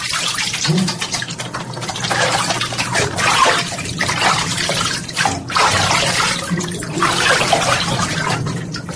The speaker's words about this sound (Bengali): ওপরে ঝাঁঝরি, নিচে টিউবওয়েল থেকে পাম্প করে এখানে ধারা স্নানের ব্যবস্থা, একেবারে রাজকীয় কারবার।